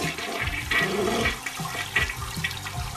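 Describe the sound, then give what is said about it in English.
A toilet flushes after its bowl has been filled to the top with gumballs and stirred, a continuous rushing, gurgling water roar with swirling surges that fills the whole clip, no voices. “There they go. They're going down the toilet.”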